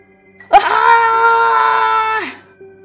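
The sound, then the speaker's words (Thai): A soldier wails in agony in the jungle, a single loud, drawn-out cry lasting nearly two seconds. The cry holds a steady pitch and then drops away at the end. “เสียงร้องโหยหวนของทหารผกค.ซึ่งอยู่ในป่าด้านหน้าของลุงร้องโหยหวนขึ้นอย่างน่าเสียดสยอง”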